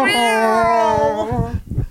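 A cat meows once in a long, loud, drawn-out cry with a clear, steady tone, followed by a brief burst of scuffling noise.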